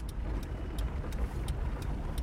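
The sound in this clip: A car driving back into a city gives a steady, low engine rumble with road noise, even in loudness throughout and without voices.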